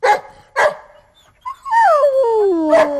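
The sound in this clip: Dogs barking and whimpering in reaction to a thunderstorm: two sharp barks, then a high whine sliding steadily downward in pitch, with another bark near the end; no thunder or voices.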